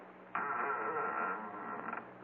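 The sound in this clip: A wooden door creaks as it is pushed open onto a landing in a crime drama, one drawn-out groaning creak lasting over a second and a half, loud and sustained before it fades.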